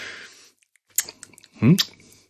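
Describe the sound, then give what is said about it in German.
Wet sucking and smacking on a thumb seasoned with cardamom, with small clicks and squishy mouth sounds, followed by a short, louder voiced sound. “Schmeckt Daumenlutschen mit Kardamom? Nee, das war jetzt kein guter Ding. Das war bäh.”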